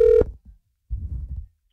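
A telephone places a call during a radio ticket giveaway. One short, clear tone is followed by a faint blip and then a longer, low, buzzing burst, with no voices.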